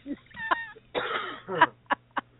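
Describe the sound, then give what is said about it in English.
A person coughing in a few short, sharp bursts with brief pauses between them, including one longer rasping stretch, fairly loud against a low steady hum. “Excuse me for coughing.”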